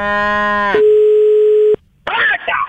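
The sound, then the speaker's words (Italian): Ringback tone of an outgoing phone call: a single steady, mid-pitched beep of about one second follows a brief buzzy harmonic sound. A short silence comes next, then a voice speaks briefly. “lo chiamo adesso, lo chiamo e ci parli tu.”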